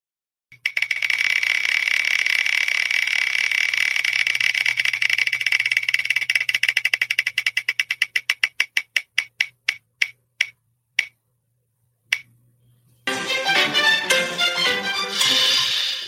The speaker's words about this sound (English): So we're just going to get back to spinning the wheel. Is that okay with you? Spin that wheel.